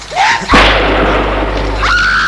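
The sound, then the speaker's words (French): A gunshot fired by a man: one sudden, loud boom with a long, sustained ringing tail. “Et l'homme tire.”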